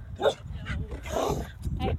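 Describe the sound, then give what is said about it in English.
Dog barking during a walk: a few sharp barks mixed with whimpering yips, heard alongside a person talking. “that's a dog. I'm on my walk.”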